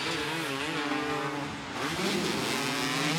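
A race car racing, its engine roaring loud and steady with a strong harmonic drone that dips briefly midway and then swells again.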